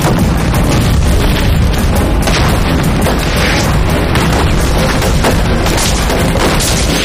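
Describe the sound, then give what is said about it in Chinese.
Artillery shells pound an enemy position in a loud, dense barrage of booms and blasts that merge into a continuous rumbling roar with no clear breaks. “炮兵继续向阵地发炮，阻敌后撤。”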